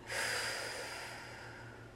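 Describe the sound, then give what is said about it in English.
One slow, deep breath, taken as part of a mindfulness exercise, sounds soft and airy. It swells quickly, then eases off gradually, and no other sound is heard with it. “So if we just stop right now and deep breath in, hold, deep breath out.”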